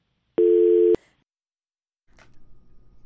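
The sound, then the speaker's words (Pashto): A telephone tone sounds after a call connection drops: one steady, flat electronic beep lasting about half a second, then a short silence before a low, uneven hum of line noise fills the rest. “د کندار نه زنګ واله او اړیکه قطع شوه”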